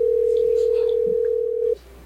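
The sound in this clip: A telephone call ringing out: one steady, low, pure tone held for under two seconds, then abruptly cut off.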